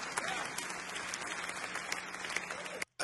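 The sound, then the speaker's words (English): Sustained audience applause at a worship service, dense steady clapping throughout that cuts off abruptly near the end. “what are they clapping about?”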